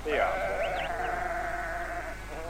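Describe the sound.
Lambs bleating, a single long, quavering call that wavers in pitch and holds for about two seconds before fading slightly.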